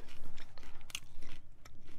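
Crunchy chewing of massaged kale: many quick, moist bites and crunches run through the whole clip at a steady, moderately loud level.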